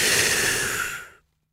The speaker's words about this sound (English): Until you breathe it all in.